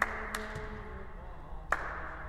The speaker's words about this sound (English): What I'd like us to try to do is to clap like this.